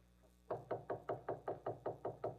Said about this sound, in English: Here's the door of the study. I'll knock.